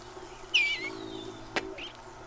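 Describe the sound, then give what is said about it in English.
A bluebird gives a cheerful warble on a spring morning, singing from a birdhouse roof. It starts as a brief, high, falling warbled phrase, followed by a sharp click and a few faint short notes over a low hum. “the first song that greets our ears is the cheerful warble of the bluebird”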